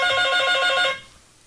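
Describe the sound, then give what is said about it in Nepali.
A telephone rings with an incoming call on a phone-in line: one burst of bright, buzzy electronic trilling that stops abruptly partway through, leaving a faint hiss. “यसरी नै एकजना colour साथी हामीसित जोडिरहनु भएको छ यहाँको पनि call लिउँ है”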